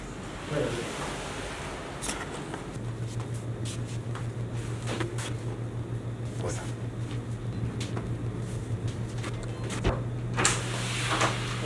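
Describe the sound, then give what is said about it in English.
The door of a cryotherapy chamber being closed, with a few dull knocks and clicks over steady background noise, then a low, constant hum that continues to the end. “Once, once you're in, you close the door.”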